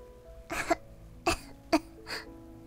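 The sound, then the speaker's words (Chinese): Faint, deliberate coughing comes from a voice playing the rose in a reading of The Little Prince: four short, breathy coughs, the last one softer. “花用刻意的咳了几声，好让王子感到内疚。”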